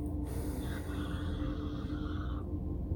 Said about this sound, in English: Let's all take a nice deep breath in together.